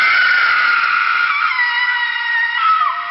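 A woman screams inside a tomb passage, a piercing, shrill cry held loud for about three seconds whose pitch drops near the end.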